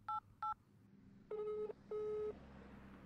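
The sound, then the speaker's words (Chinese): Telephone keypad dialing tones sound as someone calls a number. There are four clear electronic beeps: two short ones in quick succession, then two longer tones after a pause. “而家都就快六点啦，打个电话俾如果睇下佢喺边先。”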